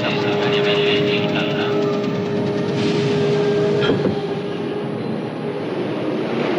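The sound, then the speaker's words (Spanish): A subway train with silver cars starts off from the station platform, giving a loud, steady rumble and clatter of wheels on rails that carries on throughout. “El tren de vagones plateados se pone en marcha en cuanto se monta.”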